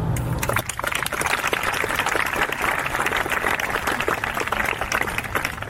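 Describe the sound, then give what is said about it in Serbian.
An audience applauds to open the Beldocs documentary film festival in Belgrade, a dense, steady crackle of many hands clapping that holds at an even level throughout. “Ja bih hteo da otvorimo festival jednim aplauzom za sve goste koji nisu mogli da dođu zbog pandemije COVID-19.”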